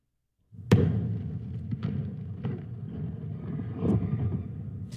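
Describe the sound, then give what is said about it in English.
Blue Origin's New Glenn rocket explodes during a launch pad test at Cape Canaveral. A sudden loud blast gives way to a sustained low, roaring rumble with a few further deep thuds. “And that is the sound of Blue Origin's New Glenn rocket exploding while it was being tested on the launch pad at Cape Canaveral.”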